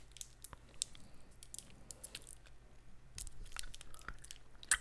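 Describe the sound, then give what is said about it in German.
Chewing on a Center Shock sour chewing gum makes many faint, wet clicks and squishes in an irregular rhythm, with no talk. “Ich habe gerade einen Center Shock hier bei mir. Schön. Ich esse den, den jetzt.”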